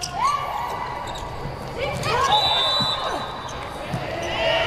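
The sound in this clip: A volleyball thuds as the number 17 outside hitter bounces it and then serves in a match. A few sharp hits sound under a commentator's talk and low crowd noise.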